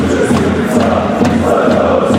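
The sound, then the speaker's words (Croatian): Dinamo Zagreb football fans chanting at a Champions League match, a sustained, loud crowd roar with a steady low drone of massed voices that carries on without a break. “Navijači Dinama, unatoč ispadanju iz Europe, nisu prestajali s navijanjem.”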